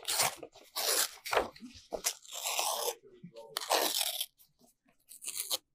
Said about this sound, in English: Where's the pen? Rip it up.